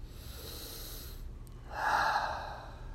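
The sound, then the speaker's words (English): A person breathes deeply, with a soft airy hiss at first, a quiet gap, then one fuller, louder breath that slowly fades. “you can take some deep breaths”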